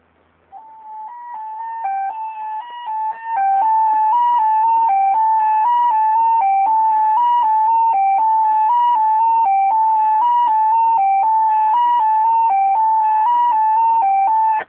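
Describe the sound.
Radiosonde telemetry tones for temperature and humidity, played through a walkie-talkie: a loud, steady, electronic beeping that steps quickly between a few nearby pitches in a regular repeating pattern, after a quieter, uneven start.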